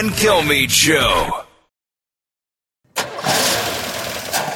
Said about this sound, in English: That is the sound of an expensive car repair about to happen.